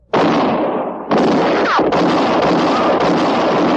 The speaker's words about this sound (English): You've killed me! I'm shot! It was Katie Fulton's shot that missed Matty Silks and hit Court Thompson.